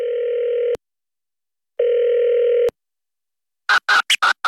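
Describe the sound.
A telephone call ringing out: two long, steady ringing tones, each ending in a click and separated by a pause, followed by a few short, choppy bursts of sound.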